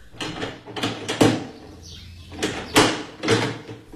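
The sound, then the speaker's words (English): A door is unlocked and opened with several clunking, rattling knocks of varying loudness, spaced unevenly. “And you, young lady, unlock that door and let the inspector out.”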